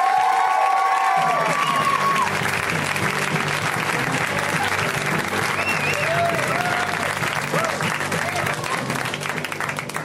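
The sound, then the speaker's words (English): Audience at a comedy show applauding and cheering as a comic takes the stage: a loud, sustained roar of clapping with whoops, and a voice speaking over the opening seconds. “so we're going to give him an extra big welcome. A friend of mine, Mr. Charlie Burry, guys. Give it up for Charlie.”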